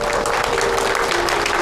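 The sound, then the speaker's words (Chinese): Colleagues applaud at a meeting to welcome a new magazine editor-in-chief, a brisk, dense burst of clapping that stays loud and even throughout. “大家鼓掌欢迎！”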